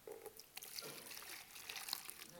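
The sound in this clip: Water poured into a container indoors, over a carpeted floor. A faint, continuous trickle with small splashing surges runs throughout.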